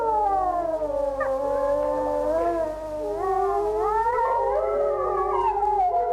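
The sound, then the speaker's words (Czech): Wolves howl in chorus: several long, overlapping, wavering cries glide up and down in pitch, loud and sustained throughout. “Myslíš si, že takhle vyjou vlci? Ano.”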